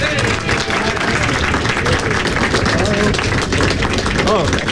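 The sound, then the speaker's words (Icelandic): Applause fills the Cavern Club in Liverpool, dense and continuous clapping from an audience, with voices and cheers rising through it at a strong, steady level. “Innanbúðar maður í Cavern klúbnum. Alnafni söngvara bandarísku hljómsveitarinnar Monkees, gefið gott klapp, Dave Jones!”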